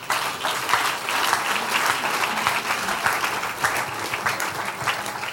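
A church audience claps their hands during a prayer service, producing loud, steady, dense clapping from many people that continues without voices for several seconds.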